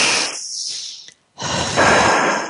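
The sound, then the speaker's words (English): A deep breath: a long, loud, airy inhale, a brief pause, then an equally loud, rushing exhale that lasts to the end. “And breathe.”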